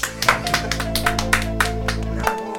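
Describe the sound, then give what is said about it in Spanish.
Hands clapping in a steady, even rhythm: many quick, sharp claps over a constant low tonal hum. “Sí, bueno, vos aplaudí y dale.”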